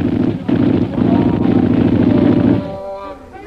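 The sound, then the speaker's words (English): Rapid machine gun fire during an attack on an old lamasery: a dense, continuous rattling burst that holds loud for about two and a half seconds, then drops away quickly. “Shanghai Lil, Bob McGuire, and Kolo sprang to their machine guns.”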